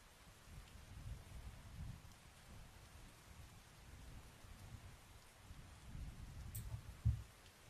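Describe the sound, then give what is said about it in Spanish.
Steady rain falls in a soft, low wash of noise that stays faint and even throughout, with a brief louder thump near the end. “Aquí también llueve.”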